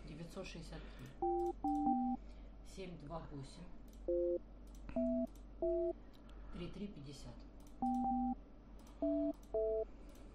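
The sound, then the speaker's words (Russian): Telephone keypad dialing on a call to a company: a run of many short dual-tone beeps at varying pitches, spaced irregularly, with quiet background noise between the presses. “сейчас мы попытаемся первой мрази набрать. Так, набираем.”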